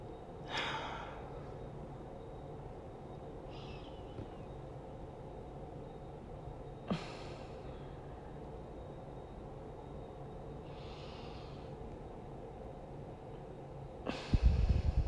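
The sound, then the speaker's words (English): Deep, conscious breathing done as an exercise to ease anxiety: a few slow, audible inhales and exhales spaced several seconds apart, faint over a low steady hiss. “so the breathing kind of gives me a sense of relief. When I'm doing the conscious breathing, I'm thinking of inhaling all”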